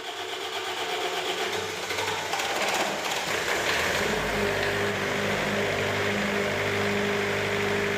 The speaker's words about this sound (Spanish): baixan os machetes simulando que marcha a luz. Automáticamente, ten que acenderse o xerador de gasóleo.